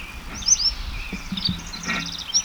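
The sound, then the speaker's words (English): A bird sings a series of high, thin chirps and quick whistled notes, some in fast trills, fairly faint over a low background hum. “Bird number one is singing exceptionally well now.”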